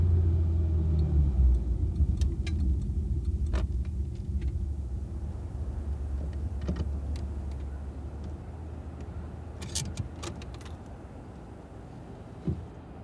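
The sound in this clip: A car driving toward a hill that looks like a rubble heap, a steady low engine rumble and road drone that eases slightly over time, with a few faint clicks and knocks.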